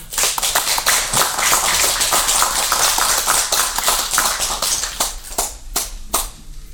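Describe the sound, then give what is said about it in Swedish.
Lively audience clapping, dense and steady at first, then thinning so that individual claps stand out toward the end. “Nu måste klappa för dem.”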